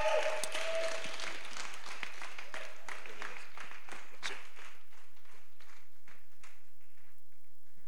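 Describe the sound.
An audience at a church gathering applauds to welcome a speaker to the stage. The clapping is loudest at the start, then thins into scattered claps and fades over several seconds.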